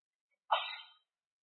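A single short sneeze bursts out during a religious lecture, a brief breathy explosion that fades quickly and stands alone in silence.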